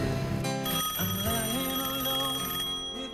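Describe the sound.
A telephone rings for an incoming call, a loud, steady electronic ringtone of bright, layered tones. It plays continuously with a melodic pattern and has no talking over it.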